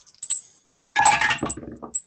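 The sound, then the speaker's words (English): Dice dropped onto a table during a tabletop roleplaying game, rolled by hand without a dice tower, give a short run of light, bright clicks and rattles. “That is a drop. Aren't you using a dice tower?”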